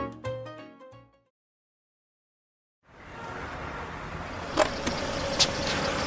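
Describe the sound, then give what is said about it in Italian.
A car drives in a taxi chase. A short musical phrase and a silent pause come first, then a steady, loud engine and road roar begins, broken by a couple of brief, sharper accents. “Segui quella macchina. Presto, non perderli.”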